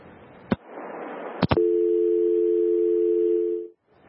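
A telephone dial tone after a caller disconnects: two sharp clicks, then a steady, even hum holding for about two seconds before cutting off into silence.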